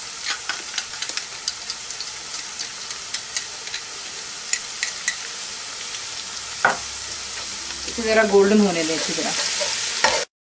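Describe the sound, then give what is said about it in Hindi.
Garlic fries in hot oil in a pot on a stove, a steady sizzle throughout under many light ticks and scrapes of stirring. Toward the end there are a sharper scrape and a louder bubbling surge. “तेल भी इसमें गर्म हो गया हुआ है. पहले हम इसके अंदर में जो हमने गार्लिक रखा हुआ है अच्छी तरह इसको हम बीच में गोल्डन करेंगे.”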